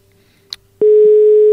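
Telephone busy signal after a dropped call: a loud, steady electronic tone starts abruptly after a faint click and holds unbroken to the end.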